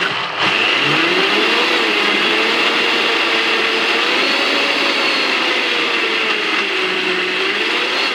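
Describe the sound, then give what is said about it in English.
A blender whirs as it purées kiwi, avocado, lime, kale and frozen banana into a green smoothie, a loud, continuous motor drone with a slightly wavering hum that holds steady throughout, with no talk. “So in this we have the kiwi, avocado, lime for add some freshness, and kale, and a frozen banana. So we're going to quickly whisk it now.”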